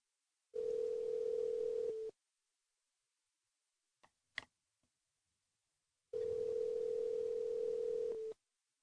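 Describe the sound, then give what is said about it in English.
Two long, steady telephone-style beeps, each lasting about a second and a half, on a single held pitch, with a few faint clicks in the quiet gap between them. “That is weird. That beep.”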